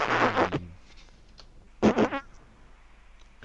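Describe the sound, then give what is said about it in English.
Fart sound effects from a background loop: two buzzy, low-pitched blasts separated by a quiet gap, then a short, faint pop at the end. No one speaks. “I miss the farts down in Africa. Oh, the background loop.”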